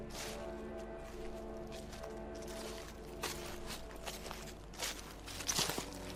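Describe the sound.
Footsteps squelch and splash through water at night as a barefoot child walks in heavy rain, a few soft wet steps over a steady sustained tonal backing.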